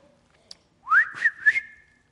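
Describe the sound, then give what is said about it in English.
A person whistles as if calling a dog: one clear whistle swoops upward, then holds a high note broken by a few warbling pulses, heard alone. “So like a man whistles for a dog, and the dog hears that man's whistle at the far end of the field”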